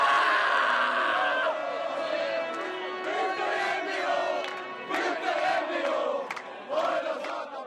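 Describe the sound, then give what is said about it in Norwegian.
A crowd roars at the ice hockey Norwegian championship final in Stavanger, which was decided in overtime. The chanting and cheering are loud and sustained, with repeated surges of whooping shouts. “Ja, det var helt vild stemning i Stavanger. Vi kan, tror jeg rett og slett, vi skal ha noe helt først, skal vi bare høre litt på hvordan stemningen var i går.”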